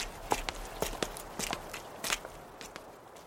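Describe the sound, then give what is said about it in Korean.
A woman's footsteps walking toward a motel, her body tilting at each right step. The light, faint steps fall in an uneven, limping rhythm of roughly paired footfalls. “엄마는 모텔을 향해 걷기 시작했다. 오른발을 디딜 때마다 오뚜기처럼 15도쯤 몸이 기울었다.”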